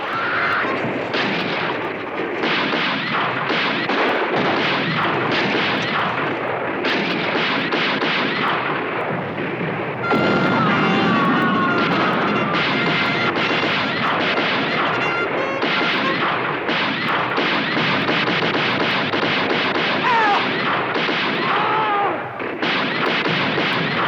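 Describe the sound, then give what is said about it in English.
Sustained, dense gunfire as a man shoots two soldiers running through a compound. Many rapid, loud shots pile into a continuous barrage that lasts throughout without pause. “When two soldiers run past, he shoots them.”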